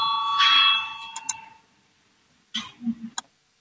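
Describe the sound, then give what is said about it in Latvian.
A bell rings in a parliament chamber to call members to a vote. A bright, ringing tone sounds for about a second and a half and fades out, followed by a few short clicks and low knocks. “Lūdzu zvanu, balsosim par 219. deputāta Valaina priekšlikumu.”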